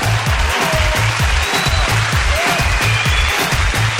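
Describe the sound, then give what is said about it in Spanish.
Canned applause sound effect triggered from a button in a new studio, loud, dense clapping layered over a steady, pulsing low beat that repeats evenly throughout. “Tengo yo un botón, sí, un botón nuevo donde le doy y suenan aplausos”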